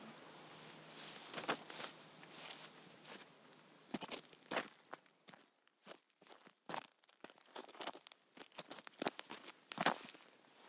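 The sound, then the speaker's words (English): Footsteps crunch along a fell path outdoors: many irregular, crisp steps on gravelly ground, some louder and some softer, with no talking. “So we'll take a few steps and begin our journey.”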